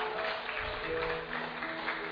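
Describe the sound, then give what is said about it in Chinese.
Church audience applauding during a service, a steady wash of clapping with no clear breaks, fairly faint throughout. “哈利路亚，我们掌声给他们鼓励的祝福。”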